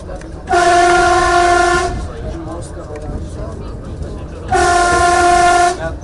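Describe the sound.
An Armenian train sounds its horn in two long, loud, steady blasts, with a low rumble of the moving train running between and under them.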